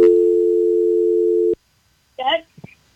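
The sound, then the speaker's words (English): A telephone dial tone after a caller drops off the line holds steady for about a second and a half, then cuts off abruptly, followed by a short burst of speech. “Go ahead with your call. Are you there? We lost our caller.”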